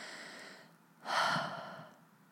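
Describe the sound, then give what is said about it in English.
A single big, calming breath, drawn in and let out as a soft, airy rush that swells and then slowly fades. It is fairly quiet, with no talking. “So let's take a big, calming breath”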